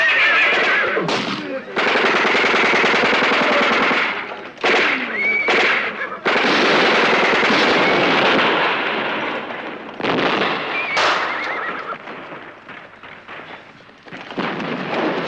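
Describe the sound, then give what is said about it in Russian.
Battle gunfire between White Guard and Red Guard fighters on horseback, dense and loud, with bursts of machine-gun fire and rifle shots, and horses whinnying amid the nearly continuous barrage. “Белогвардейцы стреляют по красногвардейцам. Некоторые лошади падают вместе со всадниками.”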